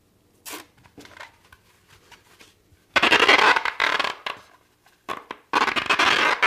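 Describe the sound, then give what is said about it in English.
Waterproof tape being pulled off its roll and wrapped around a floral foam sphere: a brief rasp and soft crinkles, then two long, loud, harsh ripping stretches of tape peeling away, with no talking. “first thing we need to do is get out our trusty waterproof tape, and we're going to wrap this around our sphere.”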